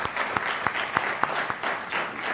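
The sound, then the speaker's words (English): An audience applauds social service providers, giving a steady, dense round of clapping at a moderate level, with a few sharper individual claps standing out at intervals. “So if there's a provider of social services, could you raise your hand? And could we give those folks a round of applause?”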